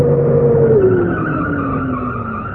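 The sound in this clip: Tires skid as a car pulls up, a loud, sustained squeal whose pitch slides slowly downward across the whole stretch, with no voices.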